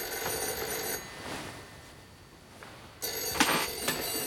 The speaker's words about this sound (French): Dis donc, c'est le téléphone. Oui, en effet, je crois que c'est le téléphone.